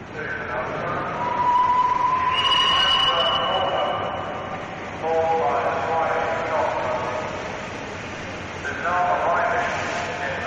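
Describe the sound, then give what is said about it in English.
A locomotive arrives at a railway station on a November day in 1965: drawn-out, whistle-like tonal notes come in three swells over a continuous rumbling, hissing background. “you can hear now the sounds recorded at Paddington Station when the locomotive arrived back on a November day in”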